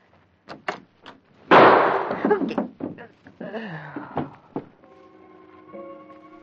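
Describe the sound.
A single loud gunshot at the front doorway of a home: one sharp, heavy bang with a short ringing tail. Lighter knocks and a voice follow, then a sustained tone near the end.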